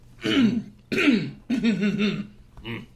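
A person clears their throat four times in quick succession. Each raspy, partly voiced burst is loud, and the last one is shorter and softer than the others.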